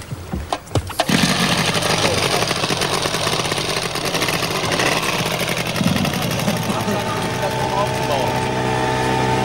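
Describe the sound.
An engine is running during a trip to Antarctica. A few sharp knocks come first, then a loud, steady mechanical drone with a fast, rattling texture continues for about eight seconds.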